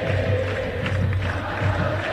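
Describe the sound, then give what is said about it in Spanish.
Football crowd singing in the stadium as the match ends, a loud, continuous mass chant with a steady droning melody throughout. “Canta el público.”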